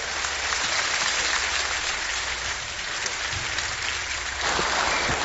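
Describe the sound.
Audience applause fills the hall as evangelist Shane Pruitt is welcomed at the Iron Man Conference: a dense, steady roar of many hands clapping that stays loud and even for the whole stretch, with no voices on top.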